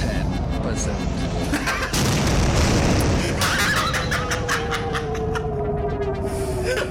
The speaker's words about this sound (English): All right. Ship is destroyed. You lose.